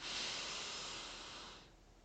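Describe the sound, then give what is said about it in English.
A slow, deep inhale through the nose makes a soft, steady breathy hiss lasting about two seconds, then fades away at the end. “So what I like to do is inhale deeply through the nose by a count of four.”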